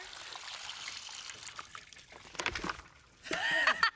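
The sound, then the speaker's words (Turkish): Water poured into a channel, trickling and splashing as it runs down, a soft, irregular patter that grows busier toward the end, where a voice briefly cuts in. “Şimdi buradan suyu bırakacağım ve su tutmaya kadarki yolu gittiğini görmeyi deneyeceğim.”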